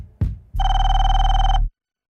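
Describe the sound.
A telephone rings once for an incoming call, a loud, steady electronic buzzing tone lasting about a second after a brief low click, with no voices.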